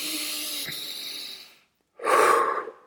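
Breathing demonstration: a long, airy inhale, a short silent pause, then a shorter and louder breathy exhale released freely.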